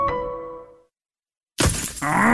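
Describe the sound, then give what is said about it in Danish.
A stone chip strikes a car windscreen with a single sudden, sharp crack and shatter after a moment of silence, followed by a brief continuing crackle and ring. “Et stenslag! Det skal du få fikset. For en skadet rude revner lidt, når det er koldt.”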